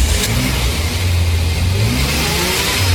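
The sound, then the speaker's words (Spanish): A car engine revs in the street, a loud, steady mid-pitched roar with strong low harmonic tones that climb slightly, heard alone with no voices. “Estamos en plena calle haciendo la nota a un excelente motor a quien ya preguntamos cómo se siente.”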